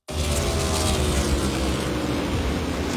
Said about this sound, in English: We welcome you back to Chicagoland Speedway. The laps getting fewer, but the race leader, William Byron, continues to hold a 0.7 second lead over second place, Chase Briscoe.